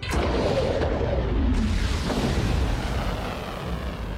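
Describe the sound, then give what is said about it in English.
A missile launch in an animated film gives off a loud, continuous roaring rumble. It holds steady for the whole stretch, with a faint sharp crack near the start and no voices. “Launch the missile now!”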